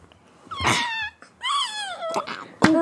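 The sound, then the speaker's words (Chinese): A voice imitates a dog whimpering and crying in pain after being beaten, with several high, wavering wails that bend up and down in pitch, separated by brief pauses and ending in a sharper yelp. “啊！好可怜哦，他哭的，痛的叫的哭了出来。”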